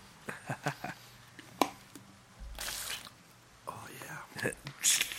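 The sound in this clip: Liquid swishes and squelches in a mouth as someone rinses it out. Quiet, wet bursts and soft clicks come in an uneven run, with a longer sloshing stretch midway.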